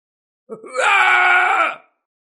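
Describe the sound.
An old man screams in agony while burning alive: a short strained grunt breaks into one loud, sustained, anguished cry that holds steady, then cuts off.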